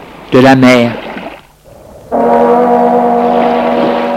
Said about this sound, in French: La sirène du bateau, tout bouge, le bruit de la mer